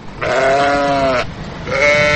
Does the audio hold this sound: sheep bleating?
yes